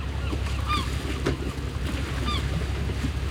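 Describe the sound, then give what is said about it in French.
Fishing-port ambience at Brest, Brittany, under a grey March sky: a steady wash of water and low rumble throughout, broken twice by brief shrill bird cries. “Je suis en Bretagne, devant le beau port de pêche de Brest. Le ciel de mars est presque aussi gris que la mer. J'entends des cris stridents comme une plainte.”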